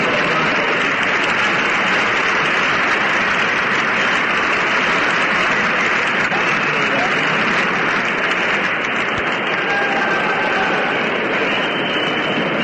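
Audience applause at the close of a show: dense, even clapping sustained for the whole stretch at a steady level, with no voices over it.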